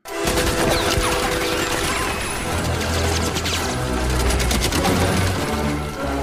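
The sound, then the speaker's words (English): Sustained volley of gunfire as soldiers shoot through wooden floorboards in a film scene, a loud, dense, unbroken barrage of overlapping shots lasting the full six seconds. “And the soldiers open fire through the floorboards.”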